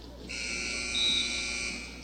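A wrestling match buzzer ends a period with one steady, fairly loud electronic tone that holds for most of two seconds and then cuts off.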